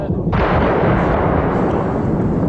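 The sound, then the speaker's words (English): Artillery fire during a bombardment of the Chechen capital in 1995 forms a dense, continuous low rumble of blasts. A sharp crack stands out near the start, and the whole clip stays loud throughout. “Russian troops bombard the capital of the Russian Republic of Chechnya in 1995.”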